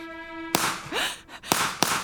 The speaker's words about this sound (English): That's gunfire!